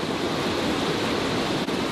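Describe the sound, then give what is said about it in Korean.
Steady roar of water pouring from a ten-metre waterfall in a mountain valley, a dense continuous rush at constant loudness with no voices. “10m 높이에 어디서 이토록 많은 물이 펑펑 쏟아지는지 그저 경이로울 뿐입니다.”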